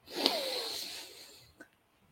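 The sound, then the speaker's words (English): One long, airy breath taken during a guided group breathing moment. It is a soft, hissing rush of air lasting over a second and fading out, with a faint click just after. No talk. “Let's take a breath together.”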